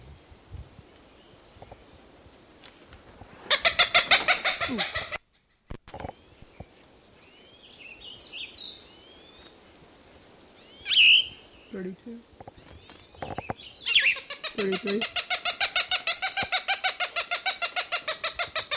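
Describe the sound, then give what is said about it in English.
An excited Cooper's Hawk calls near its nest in two long, rhythmic series of rapid, harsh, repeated notes. Between the series is a quieter stretch with scattered softer bird notes. “Cooper's Hawk, very excited, must be near a nest.”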